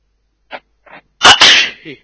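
A single loud, sharp sneeze, preceded by two short, soft catches of breath and followed by a brief faint trailing sound.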